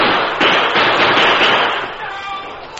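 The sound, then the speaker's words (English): Gunfire from lookouts posted up a canyon: a few sharp shots crack over a dense, rumbling roar, the noise thinning toward the end with a last brief report. “The lookouts posted farther up the canyon opened fire.”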